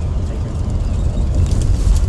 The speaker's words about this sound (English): So we are on the highway. So far, the bus is like, you know.